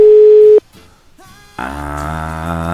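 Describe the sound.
A telephone line tone sounds while a call is being placed. One loud, steady pitch holds for about half a second, then cuts off. After a quiet gap, a fuller sustained harmonic sound comes in and continues to the end.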